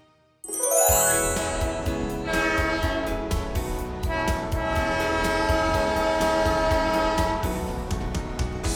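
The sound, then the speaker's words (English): A train horn blares in one long, loud, sustained chord that starts abruptly and holds to the end, with the steady rumble and rattle of rail cars running beneath it. “Do you know what that sound was? That's right, it was a train.”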